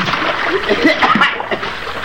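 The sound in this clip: A man falls into water with a loud splash, followed by churning, splattering water over about two seconds.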